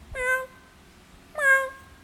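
Newborn kitten meowing, two short, high, thin mews about a second apart, each starting with a slight upward lift and trailing off, with near silence between them.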